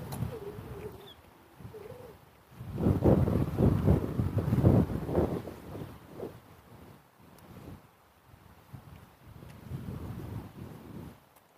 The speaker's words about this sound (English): I got a breeze blowing in my face. It's not bringing a lot of raindrops with it, which is a good thing.